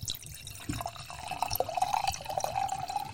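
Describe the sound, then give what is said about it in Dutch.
Red wine poured into a glass: a steady trickling pour with a clear ringing tone that creeps slightly upward in pitch as the glass fills, moderately loud and continuous for about two and a half seconds. “En dan schenk ik die van mij nog even in. En ik doe dat even voor de microfoon.”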